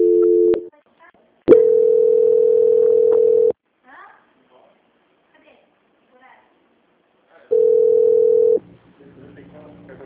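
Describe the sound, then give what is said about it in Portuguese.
Telephone line tone during a call transfer to a bank's quality-control line: three steady, mid-pitched tone bursts (short, then a long two-second stretch, then about one second) separated by quiet gaps with faint scattered sounds. “aguarde em linha que vou transferir o contato para o controle de qualidade”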